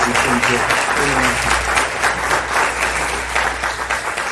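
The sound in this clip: An audience at Christ Church gives a warm welcome to a visiting pastor: sustained, full applause that stays loud and even throughout, with a voice briefly heard at the start.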